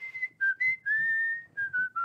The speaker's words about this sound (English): Like the same song begins to be whistled, and you hear it